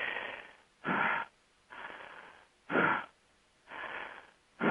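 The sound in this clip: Deep breathing: several airy, hissing breaths in and out at a steady, unhurried rhythm, faint and alone, with some breaths sounding stronger than others.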